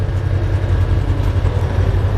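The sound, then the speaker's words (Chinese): Armored vehicle engine roaring inside the cabin, a loud, steady low drone with an even rumble and no break or change in pitch. “装甲车舱内，发动机的轰鸣声震耳欲聋”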